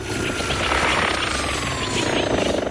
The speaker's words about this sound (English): Her twin propeller drone flies up to her.